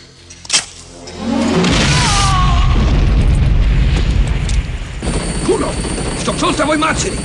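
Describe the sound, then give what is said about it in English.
A grenade explodes after a tripwire snaps in a Rambo film: a sharp click comes first, then a loud, broad blast that swells and rumbles for several seconds before thinning into noisy debris. “A wire snaps, detonating a grenade, which kills the soldier.”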